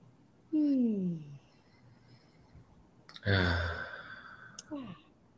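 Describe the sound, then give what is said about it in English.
Deep breathing during a guided relaxation exercise with hand on heart and stomach: two long, audible breaths with voiced sighs separated by quiet, the second breathier and louder, then a brief softer breath. “Take a deep breath in and bring yourself home to you.”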